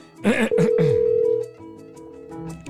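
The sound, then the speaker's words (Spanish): Ringback tone of an outgoing phone call: one steady, mid-pitched tone held for about a second, overlapping a voice at its start and followed by quieter background sound. “voy a llamarle. Correcto, ahí lo estoy llamando.”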